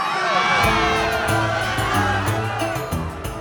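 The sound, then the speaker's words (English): A crowd of gods cheers and parties: a dense, loud mass of overlapping shouts, whoops and excited voices that rises and falls without pause. “Ganymede watched, disgusted, as the gods congratulated themselves and continued to party harder than before.”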